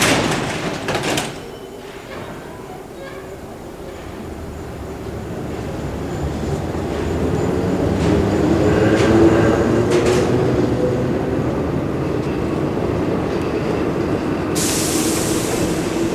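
Subway train carriage underway, a continuous low rumble and rattle that swells gradually through the middle and holds steady, with a brief brighter hiss near the end and no voices.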